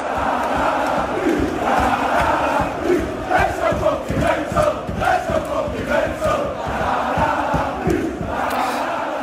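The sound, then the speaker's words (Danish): Football crowd at Leeds' home ground, Elland Road, chanting in unison, with rhythmic claps and surging voices in the middle over a constant roar of fans. “Jeg har lige lidt lyd fra Leeds hjemmebane, Ellen Road, her.”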